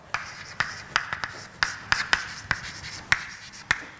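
Writing on a board during a mathematics lecture: many sharp, irregular taps and short strokes, fairly faint, with no talking.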